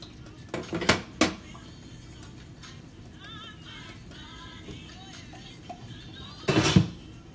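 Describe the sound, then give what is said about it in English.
Metal clatter of a lid being set on a cooking pot on the stove, a few sharp clanks early on, quiet rattling between, then a louder jangling clatter near the end. “All right, so put the lid on until it boils, it says.”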